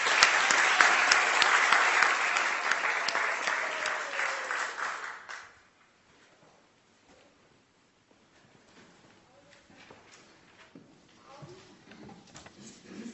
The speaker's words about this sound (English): Can we thank all our Sunday school leaders and all our creche leaders as well for all that they do to ensure that our children are welcomed, affirmed and encouraged in their own journeys of faith. Let's thank all the leaders.